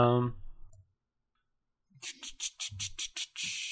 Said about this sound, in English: I'm going to click on Jimmy Buffett.